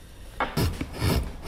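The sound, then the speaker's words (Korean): Wood being carved by hand with a knife in a master woodcarver's workshop: a few short, dry scraping and rasping strokes at an uneven pace, with no talk. “두 사람이 머리를 맞대고 열심히 나무를 깎고 있네요.”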